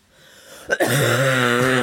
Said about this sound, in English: You've got quite a good cough at the moment